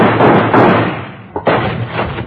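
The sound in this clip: A gunshot fired to shoot out a door lock aboard a boat: one sharp, loud bang cuts through loud, rough noise and knocking.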